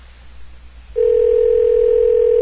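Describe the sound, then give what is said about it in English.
Telephone dial tone heard before dialing a number: after a short stretch of low background noise, a loud, steady single-pitch tone cuts in abruptly and holds at constant level to the end, with no keypad beeps. “Hopefully I can compose the number right.”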